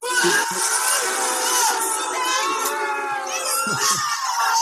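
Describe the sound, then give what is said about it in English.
A basketball game crowd boos in a loud, dense, unbroken roar of many voices that holds steady from start to finish. “I don't think your sound is coming through very well, but I think that was booing.”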